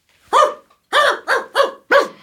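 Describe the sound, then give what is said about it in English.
Dogs barking in five loud, sharp barks: a single bark, a pause, then four more in a steady, fairly quick rhythm, with silence between each. “I want to introduce you to my dogs.”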